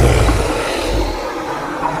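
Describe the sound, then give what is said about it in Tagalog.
A fierce dog growls: a deep, rough rumble like a roar, heaviest at the start and gradually easing as it continues, with no voices. “nakarinig siya ng nakapangingilabot na atungal ng isang mabalasik na aso na nasa kanyang harapan.”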